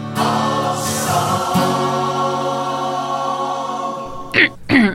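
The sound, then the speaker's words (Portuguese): Throat clearing comes as two short, rough bursts at the very end, after a long stretch of steady tonal sound. “Não, depois de limpar a garganta tem que ser.”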